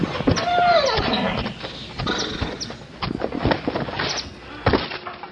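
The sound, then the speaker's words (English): Horse hoof steps performed as a sound effect in an audio drama, marking General Lee and his staff arriving: many hollow clops in an uneven rhythm over a faint background, with no voices. “Hoof steps. It's General Lee and his staff, sir.”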